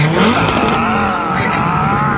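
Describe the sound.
A Ferrari engine revving, a loud, continuous whining roar whose pitch shifts and wavers while the loudness stays steady throughout.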